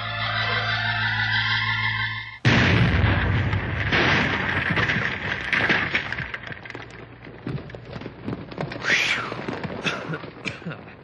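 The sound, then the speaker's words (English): An explosive blast goes off in a mine tunnel. After a couple of seconds of steady tones, a sudden loud burst breaks in and gives way to a sustained, noisy rumble with crackling that carries on to the end. “get all set up at the end on Tunnel B there. We'll blast as soon as you're ready.”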